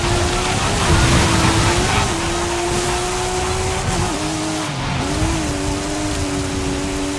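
Car engine drone from a vehicle driven in a video game, a steady humming tone held throughout with slight pitch wobbles and dips toward the end, no talk over it.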